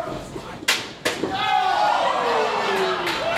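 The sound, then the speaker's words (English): A chair striking a wrestler in the face during a pro wrestling match. Two sharp, loud slams land a moment apart, followed by a sustained gliding tone that falls steadily in pitch. “Brett didn't see that chair coming back to hit him in the face either. Bulldog onto the chair.”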